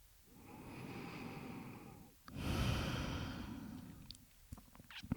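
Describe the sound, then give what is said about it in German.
A slow, deep breath drawn in and then released in a long, airy breath out, soft and unhurried with no voices, followed by a few faint clicks. “Atme ein, atme aus.”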